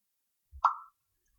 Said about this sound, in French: Allez, j'ouvre une bouteille et je vais trinquer à votre santé et à votre succès à tous.